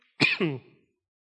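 A single short cough or throat-clearing burst breaks out in two quick, rough parts and then fades, heard alone against silence.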